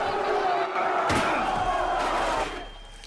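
A steel chair slams into a wrestler during a hardcore wrestling match. A sharp crashing impact cuts through a loud, continuous crowd roar that fades slightly at the end.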